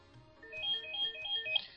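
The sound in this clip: Telephone ringing with an incoming call to a radio show, a faint electronic ringtone of repeating melodic tones.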